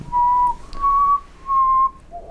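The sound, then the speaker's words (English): A person whistles alone: three long, steady held notes at a similar mid-high pitch, with short gaps between them, then a brief, softer, lower note at the end. “Your last whistle sounded terrible. Cut that out.”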